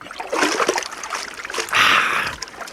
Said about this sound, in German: Sie gehen rauf, ich gehe runter und das Wasser. Das ist alles. Achtung, ich springe.